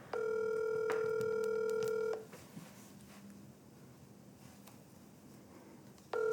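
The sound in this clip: An outgoing telephone call rings out: a steady ringback tone lasts about two seconds, then a pause of roughly four seconds, then the tone starts again. No voices.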